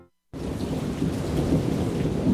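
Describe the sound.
Heavy rain pours down with deep rumbling thunder, bursting in abruptly after a moment of silence and holding as a loud, dense, steady roar with a low rumble underneath.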